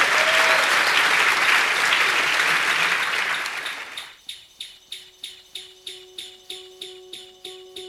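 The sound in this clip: A live audience applauds to welcome a guest, with loud, dense clapping that fades after about four seconds into a steady, evenly spaced ticking beat with sustained tones.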